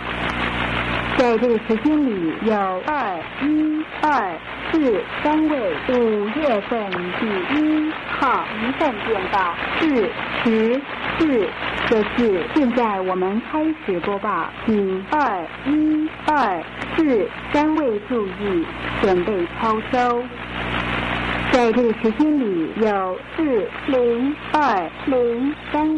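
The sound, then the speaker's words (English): Chinese-language spy numbers station New Star Broadcasting received over radio: a voice reads continuously over a steady hum and static, with brief fades in the signal. “Well, it seems like Miss Moneypenny is now speaking Chinese. Anyway, that's the infamous Chinese language spy number station, New Star Broadcasting.”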